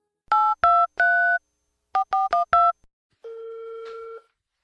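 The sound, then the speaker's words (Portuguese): Phone keypad dialing: seven short dual-tone beeps in an uneven rhythm, a pause in the middle, then one longer steady ringing tone as the call connects. No voices. “Vai, eu vou discar.”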